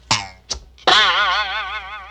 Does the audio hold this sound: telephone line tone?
no